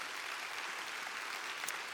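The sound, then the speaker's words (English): Applause from a church audience welcoming one another: steady, continuous clapping that blends into an even wash of sound, fairly faint and with no voices. “Let's put our hands together and welcome each other to church this morning.”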